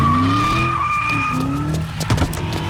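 A car accelerating hard with its tires skidding: a sustained shrill tire squeal rides over a loud engine roar, with rougher bursts of noise near the end.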